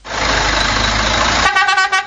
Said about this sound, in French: Des klaxons qui retentissent à répétition dans les agences de voyage.